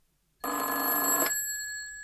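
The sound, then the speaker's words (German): A telephone ringing: one bright, loud burst of rapid bell trill starts abruptly after a moment of silence, then stops and leaves a fading high tone ringing on briefly. “Ich legte meine Füße auf den Tisch, als das Telefon klingelte.”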